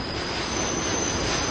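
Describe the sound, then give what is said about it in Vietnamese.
A subway train in the United States rolls along with a loud, steady, high metallic wheel squeal over a constant dense rumble. “Đây là cả tàu điện ngầm ở nước Mỹ.”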